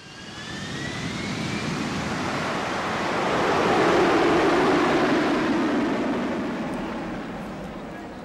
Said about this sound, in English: At the airport.